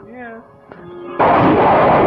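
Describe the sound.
A rocket ship is blown up. A sudden loud blast cuts in after quieter tonal sounds and continues as a dense, roaring rumble to the end.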